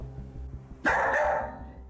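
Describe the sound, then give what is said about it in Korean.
Excited barking from a dog left alone at home and barking until its owners return: a sudden loud burst of barks over low, rhythmic background noise. “이러고 계속 짖는 거예요? 네네네. 저희 올 때까지 계속 이러고 짖어요.”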